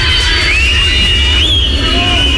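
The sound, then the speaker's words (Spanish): Crowd booing and shrill whistling at the opening speech of the president's inauguration of the World Rally Championship in Concepción, a loud, continuous crowd roar with piercing whistles sliding up and down across it. “el presidente fue a inaugurar el Mundial de Rally en Concepción, donde recibió pifias por parte del público. Silbidos que interrumpieron su mensaje inicial.”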